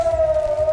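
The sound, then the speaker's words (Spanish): Air raid siren wailing at dawn in Israel after a missile launch from Iran was intercepted: a loud, steady, sustained tone that holds nearly level, with only a slight dip in pitch midway. “Y este es el sonido de esta madrugada en Israel. Es el sonido de las sirenas que saltaron después de que se interceptara el lanzamiento de misiles desde Irán.”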